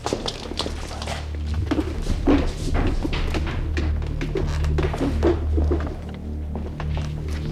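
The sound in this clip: Footsteps climbing up from a cellar: many dull thumps and knocks in an uneven walking rhythm over a steady low hum, with no voices.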